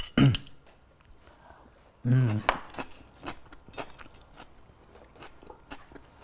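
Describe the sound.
Chewing and biting with light clinks of cutlery as someone tastes several dishes, among them a radish salad and smoked trout croquettes; a few crisp bites and scrapes come under brief, intermittent talk.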